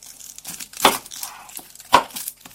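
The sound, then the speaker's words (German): A knife chops two peeled onions for a Styrian pumpkin cream soup. There are a few crisp cuts, two of them louder than the rest, with softer crunches in between and no talk. “bereitet jetzt eine steirische Kürbiscremesuppe zu und schneidet die 2 geschälten Zwiebeln klein”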